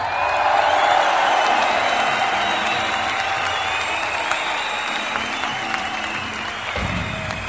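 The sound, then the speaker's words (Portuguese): Applause from a crowd: dense, continuous clapping that stays at a fairly even, fairly loud level throughout, blended with general crowd noise. “Salve de palmas, por favor.”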